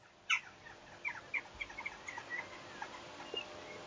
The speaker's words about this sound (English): if we fall silent, we can probably, on BH, misidentify the birds around you. So let's, let's just listen to those old birds.